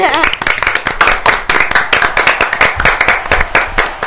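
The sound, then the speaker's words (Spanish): Loud applause with many fast, dense hand claps in an uneven, rapid rhythm, continuing steadily for the whole stretch. “prepara los aplausos porque se merecen todo el aplauso”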